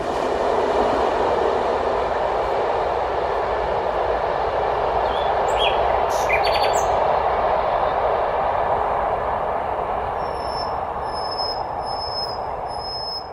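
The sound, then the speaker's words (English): A train rolls through Prague with a loud, steady rumble and hiss of wheels on rails. Near the end, a repeated high-pitched wheel squeal sounds over the constant roar. “the trains are actually omnipresent everywhere in Prague, more or less everywhere, which is probably one of the specific traces of Prague soundscape.”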